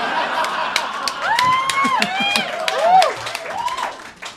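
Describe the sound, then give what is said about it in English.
Scattered audience clapping mixed with laughter and chuckling, with voices rising and falling over a steady patter of claps throughout. “Round of applause is for a fat joke, nice.”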